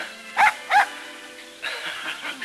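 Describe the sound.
Two short, high yips from a young collie puppy tugging at blossoms in a flower bed around a fountain, followed by a softer, noisier stretch.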